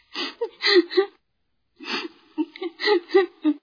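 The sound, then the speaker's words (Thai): A woman sobbing in gasping, whimpering bursts: a cluster of short voiced sobs, a brief silence, then another run of broken cries. “ในเย็นวันหนึ่งในขณะที่อัมรามเลิกงานกลับถึงบ้านพบภรรยาของเขากำลังร้องไห้”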